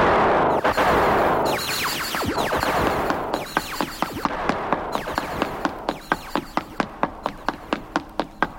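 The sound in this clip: Gunfire covering a run: after a burst of hissing noise, many sharp, loud cracks follow, sparse at first and then settling into a quick, evenly spaced series.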